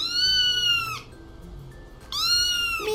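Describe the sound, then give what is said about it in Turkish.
A cat meows twice, each a long, bright, fairly loud cry that dips in pitch as it ends, with a quiet pause between them. “bir kedi sesi duydu”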